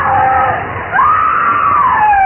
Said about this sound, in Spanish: sus gritos enloquecidos resonaban en el cementerio